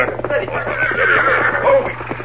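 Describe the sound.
A horse whinnies loudly as the Lone Ranger reins in his horse Silver during a hard ride in a Western drama, a sustained neigh lasting about two seconds.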